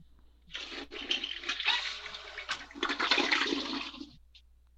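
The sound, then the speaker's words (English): A toilet flushes, and the rushing, hissing surge of water builds over about four seconds before cutting off. The flush is fairly faint, with no talk. “Was that an actual flush?”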